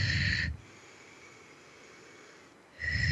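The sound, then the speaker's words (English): Forceful breathing used to move energy: two loud, rushing breaths, one at the start and one at the end, separated by a longer stretch of quieter, softer airflow. “I'm going to breathe and move some energy through us. You'll hear me doing this on that show when I'm working with the callers.”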